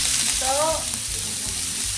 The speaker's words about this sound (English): Our butter is melted, so now we're going to add our onions and get them started. You know what? Onions are starting to heat up now. We got butter.